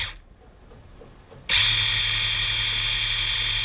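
An electric shaver's cleaning station running its cleaning program: after a near-silent start, a loud, steady whirring motor hum kicks in abruptly and continues evenly with a bright hiss on top.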